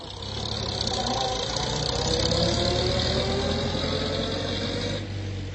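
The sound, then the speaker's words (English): A car engine runs steadily as the car drives off down a drive. It makes a continuous, even rumble with a mid-pitched hum and eases off slightly at the very end. “As John drove her off down the drive”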